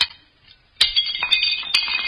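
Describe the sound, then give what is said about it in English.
Drinking glasses are smashed in a fireplace: a few sharp crashes, each trailed by bright ringing tinkles of shards. “We drank and smashed our glasses in the fireplace.”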